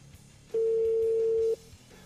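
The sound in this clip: An unanswered phone call ringing before it goes to voicemail. A single steady, mid-pitched ring tone sounds for about one second and then stops. No talk.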